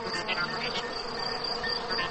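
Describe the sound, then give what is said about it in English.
Crickets chirping in a dense, continuous high trill that holds steady throughout, with no voices. “You can tell the temperature by how many times a cricket chirps in a minute.”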